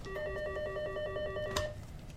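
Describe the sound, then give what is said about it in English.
A telephone rings in a law firm office: a rapid electronic trill of pulsing tones, fairly loud and steady, that stops just before the end. “The phone rings a lot these days at this law firm located in a sleek new building on Jackson's Pearl Avenue.”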